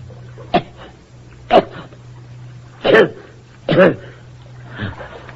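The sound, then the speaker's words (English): A man who has just been pulled from a river grunts in a few short, rough bursts with brief gaps between them, the last one fainter. “What are you grunting about?”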